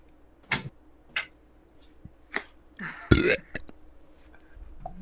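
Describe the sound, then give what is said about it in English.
A single short, low burp erupts loudly midway, standing out among a few brief, softer noises around it. “I burped and he asked if Dawn was on the mic.”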